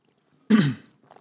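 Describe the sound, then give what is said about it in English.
A man burps once after drinking a Monster energy drink. The burp is short, low and gruff, lasting about a third of a second, and stands alone in quiet. “Excuse me. You're good. Don't worry. I fucking burp 1,000 times because I drink a monster every episode.”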